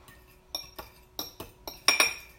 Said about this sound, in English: Okay. That fork is gross. Put it right in the sink. Okay. So my eggs are beaten,